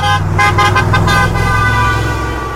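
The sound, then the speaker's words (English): Car horns honk in a Florida retirement community: a few quick, loud beeps in a row, then a sustained honk that holds its tone and slowly fades. “If you hear, you know, beep, beep, beep, beep, that's the good beep. If you hear, you know, he just lays on the horn, usually you're getting the middle finger.”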